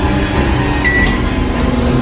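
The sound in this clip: A microwave oven switches on and runs with a steady low electrical hum and a layered droning tone. A brief high tone sounds near the middle.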